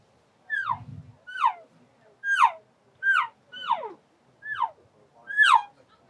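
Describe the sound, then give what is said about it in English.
A voice imitates soft elk cow calls by mouth, with the mouth covered: seven short, muffled mewing whines, each sliding down in pitch, spaced at a fairly steady rhythm. “I always start off with cow sounds, and they might be soft cow sounds. And I'm gonna just demonstrate one of these.”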